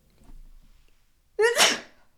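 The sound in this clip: A woman sneezes once, loudly and sharply, after a soft breathy lead-in, and the burst fades quickly.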